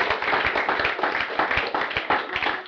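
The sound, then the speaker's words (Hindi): Applause for a team at a camp: many hands clapping in a dense, steady, loud patter that runs the whole way through without any talk over it. “तो एक बार पूरी team के लिए जोरदार तालियां हो जाए”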